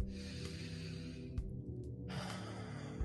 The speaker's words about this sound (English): So let's just stop here and take a big ass deep breath.